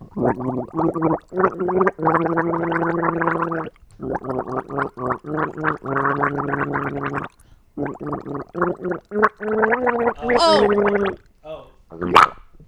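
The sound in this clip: A person gargling to imitate drowning: long, loud, bubbling bursts broken by short pauses, ending in a few squeaky high gurgles.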